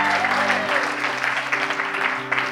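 A church audience applauding, a steady, dense patter of clapping that holds at an even loudness over sustained low tones.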